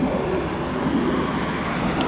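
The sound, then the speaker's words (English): A car speeds along Oriental Boulevard, a long straight road with traffic lights, at about 40 miles per hour, ten over the limit. It makes a steady, continuous rumble of engine and road noise throughout, with no voices. “How fast was that car going? That's going 40. 40 miles per hour? Yeah. Okay, 10 over the speed limit.”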